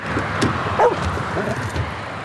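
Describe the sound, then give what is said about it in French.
A dog gives a few brief, high yips and whimpers over a steady background rumble. One yelp stands out clearly, and a fainter whine follows later. “À Orléans, nous avons chargé un chien.”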